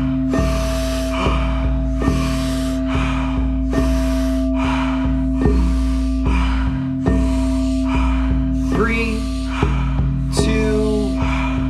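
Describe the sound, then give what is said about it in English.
A group breathing deeply during a guided breathing exercise: many loud, rhythmic whooshing breaths in quick regular succession over a steady low hum. “Love hearing the sound of the breath. Seeing the bellies and chest rise. Expand through the lungs, the ribs.”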